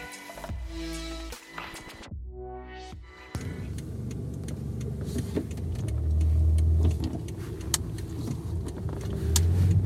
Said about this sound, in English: So I'm driving to yoga right now, which is much needed.